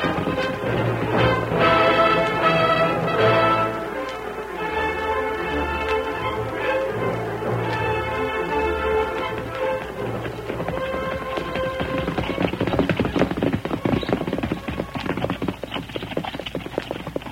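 Cavalry horses galloping in a column, a dense, continuous run of loud hoofbeats that keeps a fast, steady rhythm from start to finish.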